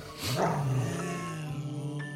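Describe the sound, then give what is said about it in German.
A dog growls in one low, harmonic, sustained snarl that swells at the start and then holds steady for about two seconds, fairly quiet, with no talk over it. “Das ist ein Hund. Ja, das ist ein Hund.”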